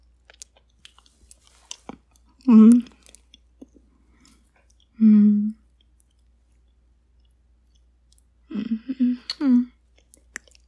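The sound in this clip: Someone chews while tasting food: faint wet mouth clicks scattered throughout, broken by a few short, low hummed murmurs.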